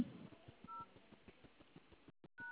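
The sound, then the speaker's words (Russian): Telephone dialing tones on a café phone line as a call is put through to a banquet hall, with short, faint electronic beeps and soft low clicks in a loose repeating rhythm, then brief dropouts near the end. “Оставайтесь на линии, я соединю вас с залом на 50 лет. Одну минутку.”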